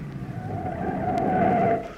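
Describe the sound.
A car brakes to a stop with a steady squealing tone from the tires or brakes that swells, holds and then drops away at the end.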